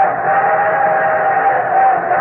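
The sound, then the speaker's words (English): Modern locomotives on a rail line across the Manchurian plains give a sustained shriek. A steady, loud whistle-like tone holds over a continuous rushing noise without a break. “the shriek of these modern locomotives across the Manchurian plains is the voice of modern enterprise”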